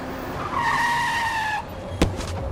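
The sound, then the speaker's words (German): Car speeding and skidding in a small residential street in a new housing estate: a high tyre squeal holds for about a second over loud engine noise, then a short sharp burst of noise follows. “Wie aus dem Nichts kam der Wagen auf mich zugerast.”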